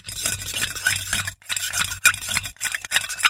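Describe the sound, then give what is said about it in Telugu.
A spoon stirs solute into water until it dissolves, in batches of ten grams and then five grams. The scraping swirl runs continuously with a few brief pauses and sharp clinks against the container. “సరే తర్వాత 10 గ్రాములు, ఆ తర్వాత 5 గ్రాములు, అలా కరుగుతూ ఉన్నంత వరకు కలుపుతూ ఉండు.”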